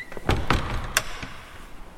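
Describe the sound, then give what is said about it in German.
Door being closed, heard as a few sharp thuds and clicks in quick succession, followed by fainter tapping. “Mach die Tür zu. Aber... Mach die Tür zu. Mach die Tür zu.”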